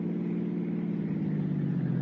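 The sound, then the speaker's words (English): A car engine hums steadily as the car drives along a coastal highway. The low, even drone holds constant in pitch and loudness throughout, with no voices. “we cut out through Westwood, then Santa Monica, then hit the coast highway and headed north.”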